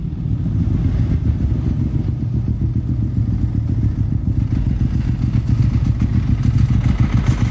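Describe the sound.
A motorcycle engine runs before a street race, a loud, continuous low throbbing rumble with steady rapid pulsing throughout and no pauses.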